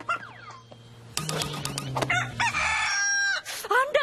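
A rooster crows among clucking chickens; the birds are pampered show chickens raised for competitions on organic feed. One long, drawn-out crow stands out in the middle, with shorter clucks and squawks around it over a steady low tone.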